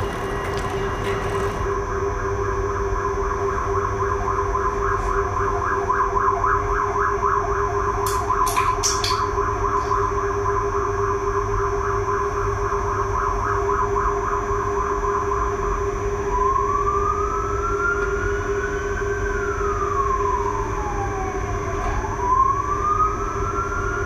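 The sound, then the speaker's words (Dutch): Emergency vehicle sirens sound on a Brussels city street. Steady sustained tones give way to a wailing tone that sweeps up and down, over a constant low rumble of traffic. “sirens fitted to the emergency vehicles in Brussels have always been clearly present in the sonic environment.”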